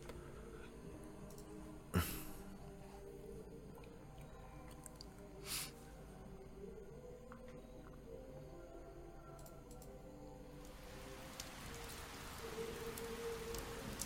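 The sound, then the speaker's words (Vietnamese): Heavy rain pours onto old, broken roof tiles, a dense steady hiss of patter with a few sharper, louder drops standing out, fairly quiet throughout. “Mưa to trút xuống đánh lên mái ngói cũ nát khiến bọt nước bắn ra liên tục.”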